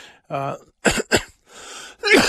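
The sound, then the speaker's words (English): Coughing from someone recovering from an illness: two sharp, abrupt bursts among breathy throat-clearing noises, with no words spoken. “Excuse me, I got to find the cough button here.”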